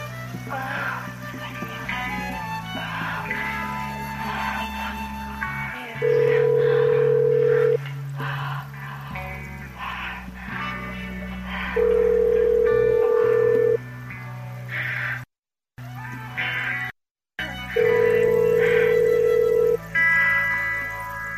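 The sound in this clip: A telephone ringing tone repeats in three evenly spaced, steady two-second bursts over busy background sound that briefly cuts out twice.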